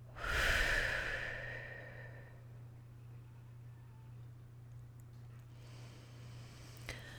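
A person breathing during a guided breathing exercise: one fairly loud, airy breath at the start fades into a quiet stretch with a low, steady hum underneath.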